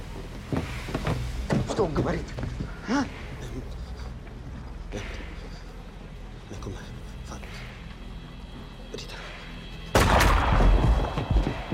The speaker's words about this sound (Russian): Тут же немец убивает его выстрелом в голову. Хороший выстрел.